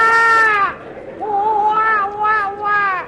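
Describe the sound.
An infant cries at a cinema in a series of strained, harmonic wails. The first wail falls in pitch as it ends, and louder, pulsing cries follow without a pause.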